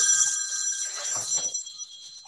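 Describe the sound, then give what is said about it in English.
A mobile phone rings with a bright, high-pitched electronic tone that holds steady, then fades out partway through. “excuse me, I thought I had turned my phone on.”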